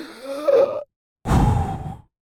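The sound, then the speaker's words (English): A snoring sleeper stops breathing, then gasps awake. A rough breath is followed by a brief silence and then a loud, harsh inhaled gasp. “that is him stopping breathing and his body saying, wake up, you forgot to breathe.”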